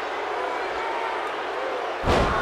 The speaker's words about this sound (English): Slip slam.